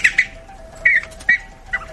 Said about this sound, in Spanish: Mira cómo suena el pergolero.